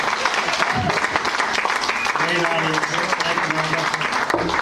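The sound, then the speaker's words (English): Applause for a stand-up comedian at the end of his set, with dense clapping throughout and a voice briefly heard over it midway. “Give it up for Joe, everyone!”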